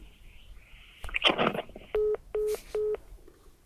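A telephone number being dialed: a short noisy burst comes first, then three evenly spaced touch-tone beeps, each a clear steady two-note tone of equal length and loudness.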